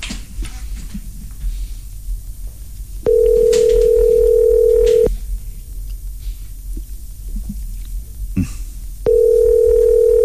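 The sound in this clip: Ringback tone of a telephone call waiting for someone to answer: two long, steady low buzzing tones of about two seconds each, separated by a pause, the second cut off at the end, over faint background noise.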